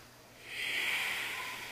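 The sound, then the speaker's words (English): A single long ujjayi breath during a yoga practice: a soft, steady hissing rush through the throat that swells partway in and stays sustained to the end. “Each movement requires a breath to lead the way. It's not just through sun A's and sun salutation B's. It's throughout the whole practice. Ujjayi breath guides you.”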